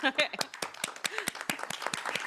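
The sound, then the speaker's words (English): Audience clapping at a workplace presentation: many sharp, irregular claps from a small group, with voices near the start. “Yeah, I feel like we should clap.”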